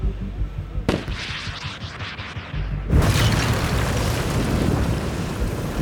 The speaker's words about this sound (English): You've just blown up the Louvre.